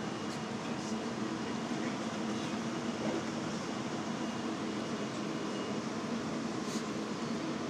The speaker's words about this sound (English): As the nice man has said, we're on train 707.